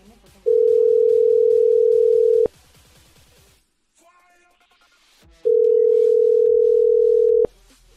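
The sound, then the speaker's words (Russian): Telephone line tones while a number is redialed: two long, steady, loud tones, each lasting about two seconds, separated by a quieter gap. “Сейчас ещё раз наберём.”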